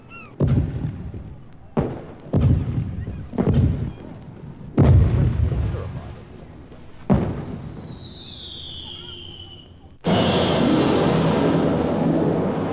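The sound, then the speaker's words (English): Rockets are fired at a French fleet lying at anchor in a harbor: a series of sharp, booming launch blasts, then a thin whistling tone over a fading rumble, ending in a loud sustained roar. “Captain, the rockets are ready. They may commence firing now.”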